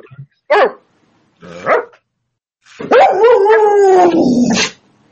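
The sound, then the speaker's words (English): A dog gives two short, sharp barks, then breaks into a long, loud, drawn-out howling bark lasting nearly two seconds. “What was that? That's the dog.”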